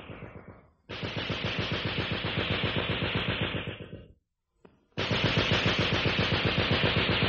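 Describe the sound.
Machine gun fire in a battle scene of an Egyptian radio drama: three loud, sustained bursts of rapid, rattling shots. A short pause separates the long second and third bursts.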